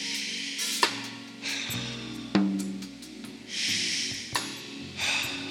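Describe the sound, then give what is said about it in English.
Deep breaths drawn in and released, soft airy rushes over low sustained tones, with a few sharp clicks scattered between them. “I want you to just take a couple deep breaths.”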